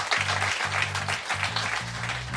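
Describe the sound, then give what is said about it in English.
Audience applause for the host at the close of a live show, a dense, steady wash of clapping with low, rhythmic tones pulsing beneath it throughout. “Round of applause for Jason.”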